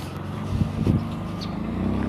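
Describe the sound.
Cars driving past on a street on a sunny day make a steady, low rumble of traffic that swells slightly at times. No one speaks.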